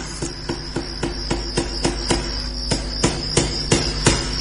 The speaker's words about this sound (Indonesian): Asalnya dari arah luar kamarku. Mungkin sedang memasang paku, pikirku saat itu.